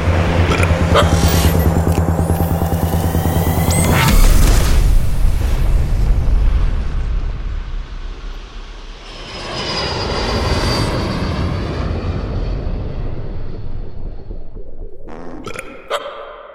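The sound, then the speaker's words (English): Roaring, engine-like rumble of a space pod launching, loud and sustained throughout. It swells near the start, dips briefly midway, then surges again before a couple of sharp clicks at the end. “Hold tight, boys. Launching pod in 3, 2, 1.”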